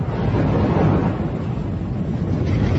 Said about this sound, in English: This is what magma racing towards the surface might sound like.